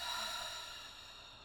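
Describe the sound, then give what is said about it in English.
A slow, deep exhale through the nose during a breathing exercise: a soft, airy hiss that gradually fades, quiet and alone. “take a nice deep breath in through the nose, filling the belly. Now completely letting it all out.”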